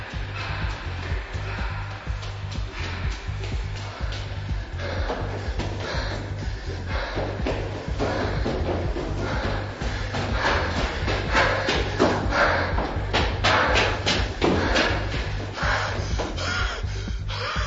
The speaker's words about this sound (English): rushes out and begins running up the spiral staircase.